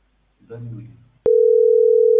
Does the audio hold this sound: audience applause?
no